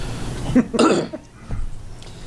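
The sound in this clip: Coughing and throat clearing from something stuck in the throat: a few short, harsh coughs in quick bursts, followed by a softer throat-clearing sound, with no talk.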